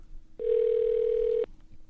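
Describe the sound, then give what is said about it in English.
A telephone dial tone sounds after a number has been dialed. A single steady, level electronic tone holds for about a second, then cuts off abruptly. “You got another number or what? Maybe I dialed it wrong.”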